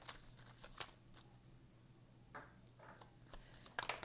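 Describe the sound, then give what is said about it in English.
Quiet rustling and sliding of tarot cards being pulled from a deck: a few soft scraping bursts, with a busier flurry of card handling at the end. “So let's pull a few more cards, because obviously, if the cards want to talk, let's get all of them out.”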